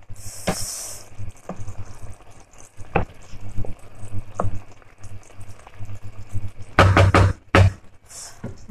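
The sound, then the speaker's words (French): A spoon stirs lemon juice into a mixture in the kitchen, giving scattered light knocks and clinks against the bowl, then a quick, louder cluster of taps near the end. “Une deuxième cuillère à soupe de jus de citron. On va mélanger comme ça.”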